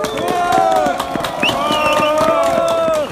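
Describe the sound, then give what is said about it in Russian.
A rally crowd in Sokolniki claps and cheers before speeches begin, with brisk, dense clapping and scattered shouting voices that stay loud and even before cutting off at the end. “давайте все дружно перед началом мероприятия похлопаем сами себе, что мы собрались, покричим.”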